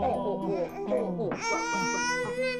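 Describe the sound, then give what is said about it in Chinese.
A baby cries, a lower fussing voice leaping into a sustained, high, strained wail rich in harmonics about halfway through. “怎么哭了？ 刚才还好好的呢，突然就哭起来了。”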